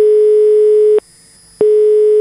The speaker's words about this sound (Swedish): Då har vi nu ringt upp Barbro Råsbrandt